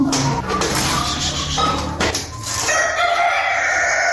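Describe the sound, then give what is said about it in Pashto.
Chickens clucking and a rooster crowing at a small family poultry farm kept at a home in Uruzgan province, Afghanistan. Loud, dense bird calls fill the whole stretch without a break. “نوراغا په خپل کور کې د کورنۍ چرګانو په پالنه بوختی”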